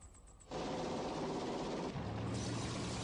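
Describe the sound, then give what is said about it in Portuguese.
Explosions roar through an anime action scene: a dense, continuous barrage of blasts and crackling that starts abruptly after a brief quieter lead-in and stays loud throughout. “O que tá acontecendo agora é o seguinte, cena de ação. Explosões. Esperem explosões.”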